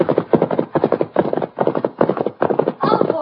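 Horses' hooves as Silver and Scout ride down a slope, a loud, steady, rapid rhythm of beats that keeps going without a break.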